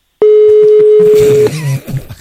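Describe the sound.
Telephone dialing tones as a phone call is placed: one long, steady, loud tone is followed by a brief lower beep, then quieter line noise.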